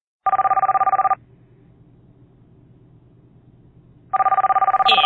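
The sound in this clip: A telephone rings in two loud, rapidly trilling electronic bursts, separated by a few seconds of low background hum.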